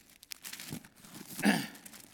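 Thin Bible pages rustle and crinkle as they are turned to a new chapter, with a few soft crackles leading to a louder papery swish near the end, quiet overall.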